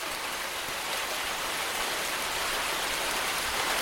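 Steady rain falling on the way to an airport, a dense, even hiss with no breaks, heard alone throughout.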